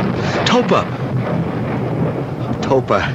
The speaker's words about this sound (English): Did you have a storm out here?